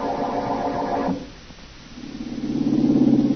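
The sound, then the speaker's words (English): A car drives along a country road as a staged radio-drama effect, with a low, steady engine drone that dips briefly and then swells back up louder. “As we return to our story, Blackie is tied up and the woman is driving him out into the country.”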